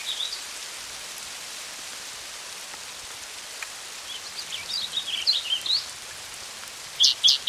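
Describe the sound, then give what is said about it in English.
Hailstorm pelting down in a dense, steady hiss of impacts that runs evenly throughout, with a few brief high bird chirps near the end. “Hailstorm in progress.”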